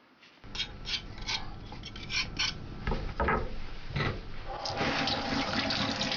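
Water runs from a tap while fresh ginger is washed, a steady splashing hiss broken by a few sharper knocks and clatters, growing fuller and louder toward the end, with no voices.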